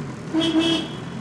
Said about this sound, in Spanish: Vamos a ver cómo va el coche este porque lo acabamos de comprar en el concesionario. Tiene un pito de última generación.